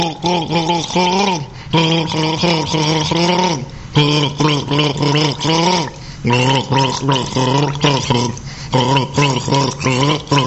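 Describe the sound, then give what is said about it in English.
A person gargles with a voiced, bubbling gurgle in many short bursts. The gurgling wavers in pitch, with brief pauses between the bursts. “Here is gargle number 7.”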